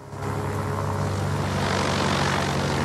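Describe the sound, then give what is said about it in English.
Propeller plane taxiing along a dusty runway, its engine a loud, steady, broad drone with a low throbbing hum underneath, holding constant throughout with no voices. “As the plane moves along a second dusty runway”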